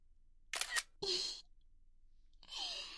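A camera shutter fires as a photo is taken, a few quick, quiet mechanical bursts separated by short silences.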